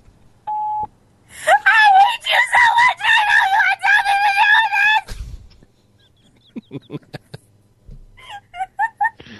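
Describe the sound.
A person screaming in a long run of loud, high, strained vocal bursts with a crowing quality, then a pause followed by a few shorter, sharper cries.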